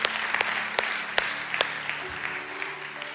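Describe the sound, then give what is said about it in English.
A church audience applauds during a Sunday morning service to welcome new members into the church family. The clapping is steady and even, with a few sharper claps standing out, and there is no talk. “So as a family, can we just put our hands together this morning and welcome others into God's family today?”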